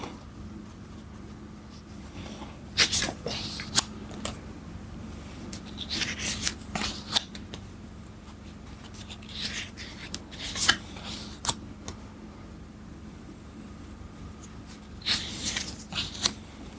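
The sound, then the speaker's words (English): Playing cards being fanned out during a solo patience game, soft crisp rustles and snaps in many brief, scattered bursts over a quiet background. “then I fan out so I can see four cards again, and there's no match.”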